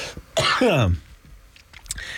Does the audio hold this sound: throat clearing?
yes